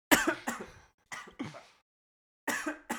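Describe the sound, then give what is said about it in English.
A person who has choked on their own spit coughs and clears their throat in a series of sharp, rough bursts separated by short silent gaps. The sounds are raspy and fairly loud, with no speech between them. “I choked on my own spit when I inhaled normally.”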